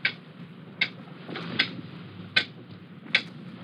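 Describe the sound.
Ticking of a time bomb: five sharp, evenly spaced clicks, roughly one every 0.8 seconds, over faint steady background noise.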